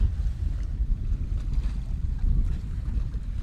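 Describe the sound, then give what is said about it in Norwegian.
A small boat's low engine rumble, steady and fairly faint, with wind-like noise over it and no voices. “En liten båt.”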